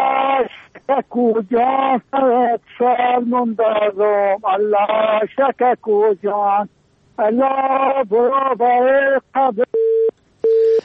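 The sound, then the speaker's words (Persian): A phone call cuts off and a disconnected-line busy tone sounds. A caller's thin, band-limited voice talks in bursts over the line, then a couple of steady, flat, mid-pitched beeps of the dropped-call tone close it out. “متاسفانه تماسشان قطع شد.”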